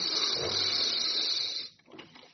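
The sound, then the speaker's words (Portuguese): A deep breath drawn in during a guided breathing meditation: a loud, steady, airy rush lasting over a second and a half that cuts off abruptly, followed by a fainter, softer breath. “Inspira,”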